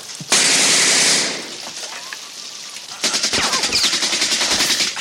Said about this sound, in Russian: Берет у убитого автомат. Убивает немца, схватившего автомат.